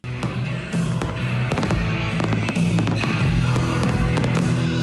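Fireworks at a rock and metal festival's final night in Clisson, Loire-Atlantique: many sharp bangs and crackling bursts burst out over a loud, continuous rumbling wash throughout.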